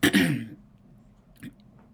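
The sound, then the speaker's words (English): A throat clearing: one loud, rough burst at the start, then near quiet with a faint, brief sound later. “I had to clear my throat for that one.”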